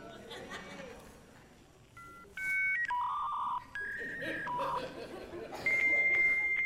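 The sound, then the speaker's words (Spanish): A voice imitates the tones of a dial-up internet modem connecting over a phone line: a run of steady beeps and held electronic-sounding tones that step between pitches, mixed with chuckling laughter. “cuando nosotros queríamos entrar a internet, lo hacíamos con el famoso tono del teléfono. ¿Usted se acuerda de ese sonido tan particular? A ver si me sale aquí.”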